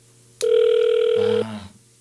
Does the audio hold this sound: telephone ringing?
yes